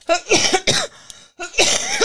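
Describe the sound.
A few harsh, rasping coughs from a person with a lingering cough, coming in quick bursts separated by a short silent gap, loud and without any talking.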